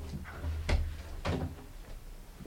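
A door being opened gives a couple of dull wooden clunks over a steady low hum, with a light rattle between them.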